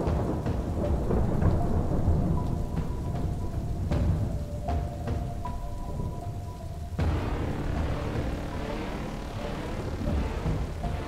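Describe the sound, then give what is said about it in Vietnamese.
Heavy rain falls steadily during a storm, a dense, unbroken wash of rainfall throughout. Low rolling rumbles of thunder swell and fade beneath it. No voices are present. “Đang chịu ảnh hưởng của bão, cho nên trời lúc nào cũng âm u, mưa rì rào suốt đêm ngày.”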